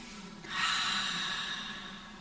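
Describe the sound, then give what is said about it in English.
A deep breath drawn in: a steady, airy hiss begins after a short quiet moment and continues for nearly two seconds, fairly loud, with no talk over it. “So let's just take a breath in and refocus.”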